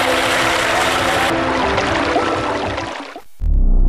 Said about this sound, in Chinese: 好，让水不断的往进灌，大概在喉咙这个位置，稳住身形